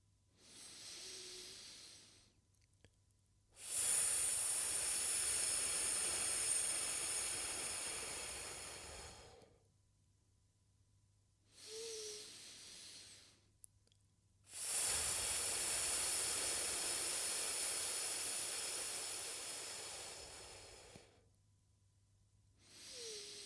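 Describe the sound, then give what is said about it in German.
Breathing in through the nose and then exhaling at length through the mouth, shown twice: a short soft inhale, then a long, steady, hissing exhale, with a third inhale beginning at the end. “Wenn ich von Atmen spreche, dann meine ich damit, atme durch die Nase ein und atme sehr lang durch den Mund aus. Ich machte das einmal vor.”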